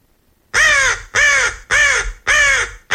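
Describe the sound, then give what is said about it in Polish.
Crows cawing: four loud, harsh caws in an even rhythm, each about half a second long, following a short moment of silence. “krukowate, nazywane ptakami inteligentnymi, poradziły sobie z liczeniem śpiewająco, a właściwie skrzecząco.”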